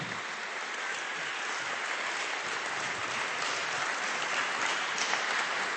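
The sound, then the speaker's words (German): Audience applause at a church gathering: dense, steady clapping that holds at an even level from start to finish, with no voices over it. “Einen großen Applaus für die drei, bitte.”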